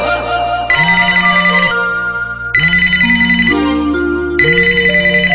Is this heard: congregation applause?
no